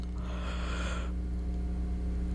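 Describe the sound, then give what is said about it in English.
A tired person yawns once, a long breathy exhale of about a second with a faint voiced tone, then trails off into a steady low hum. “I'm so sorry. I'm very, very tired this morning, yawning a whole lot”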